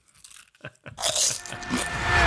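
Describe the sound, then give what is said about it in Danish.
Crunchy party crackers being eaten: a few soft clicks give way to loud, dense crunching and chewing that carries on to the end. “vi skal spise nogle party crackers”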